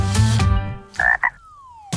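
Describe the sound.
Frog croaking: a low, rasping, drawn-out croak, then two short, higher calls in quick succession, fairly loud and with no talk.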